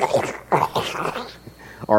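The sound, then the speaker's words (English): A voice imitates a growling stomach with a run of low, gurgling, whining vocal noises, ending in a short, louder whine. “That was my stomach, wasn't it?”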